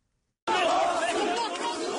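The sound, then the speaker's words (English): Hundreds of people chant together during a police raid on the Zaman newspaper in Istanbul, a loud, dense mass of voices that bursts in after a short silence and holds steady. “Hundreds of people chanted the media will not be silenced as police raided Zaman newspaper in Istanbul.”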